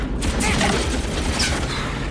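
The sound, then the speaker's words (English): Gunfire in a WWII bomber air battle as a German Messerschmitt attacks and a gunner fires back: a loud, dense, unbroken roar of crackling shots and rumble that lasts the whole clip. “The remaining gunner opens fire but is hit by the incoming fire.”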